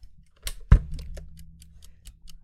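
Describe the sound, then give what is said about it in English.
A cheap off-brand replacement timer ticks in a steady, even rhythm of many sharp, faint clicks, opening with one heavier thump against a low background hum. “What you're hearing is not the time timer. I lost both time timers, and I bought a replacement on Amazon”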